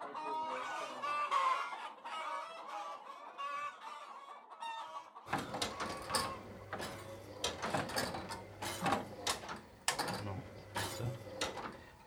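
Hens on an egg farm clucking, with busy overlapping clucks throughout; partway through, a clattering mechanical hum joins the birds.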